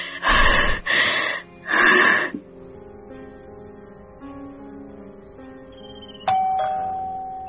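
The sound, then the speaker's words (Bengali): A doorbell rings near the end as a single bright chime that sustains and slowly fades. Three loud, breathy gasp-like bursts come before it. “Calling বেলটা বেজে উঠল তখনই।”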